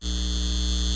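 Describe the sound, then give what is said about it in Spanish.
Steady electrical hum of a data center, a constant drone with layered tonal harmonics that holds unchanged and fairly loud for the whole second, with no voices. “Este es el sonido de un centro de datos llevándose el agua de nuestra comunidad y aumentando”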